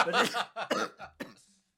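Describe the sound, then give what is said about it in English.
A short run of rough coughs, about four bursts in quick succession, trailing off into a faint, breathy hiss. “But it turned into a cough.”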